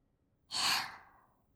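A single soft puff of air blown onto a warm right ear to cool it. The breathy hiss swells quickly, then fades gradually, quiet and alone with no talk.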